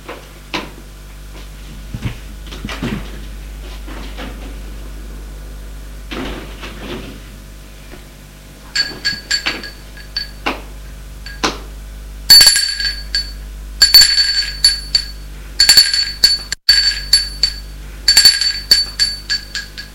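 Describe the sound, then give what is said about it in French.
A lift rises to a floor with a steady low mechanical hum beneath scattered clicks and knocks, then its door opens amid bright, bell-like chimes and clinks that repeat in short bursts. “la porte s'ouvre.”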